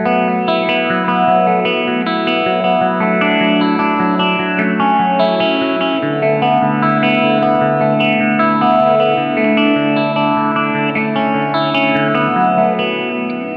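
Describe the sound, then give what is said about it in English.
Electric guitar through an Earthquaker Rainbow Machine pedal set as a low-rate chorus, with an RV5 reverb, playing sustained chords that shimmer and waver continuously at a loud, even level. “that part was originally written on the Earthquaker Rainbow Machine or whatever. But you can, you know, that's a crazy pedal, but if you adjust it the right way, it can just be a chorus”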